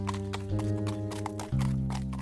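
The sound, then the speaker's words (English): Hoofbeats of a horse galloping away, heard as a rhythmic clip-clop of muffled thuds over sustained, droning musical tones that shift chord partway through. “Then he galloped away in the direction he came from.”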